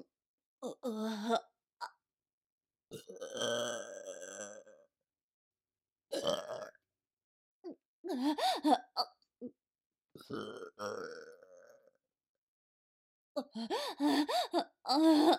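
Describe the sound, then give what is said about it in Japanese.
A person burps over and over without being able to stop, producing many deep, gurgling belches, some short and some long and drawn out, in irregular bursts separated by silences. “ゲップ止まらないよ。”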